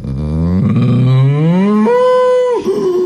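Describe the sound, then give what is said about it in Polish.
A cow moos once, long and loud, with no other sound. The call starts low and rough, climbs to a higher, steady tone, then drops abruptly at the end. “Bo krowy robią takiego zwrotniaka. Najpierw wypuszczają powietrze, potem nabierają z tym takim błaganiem.”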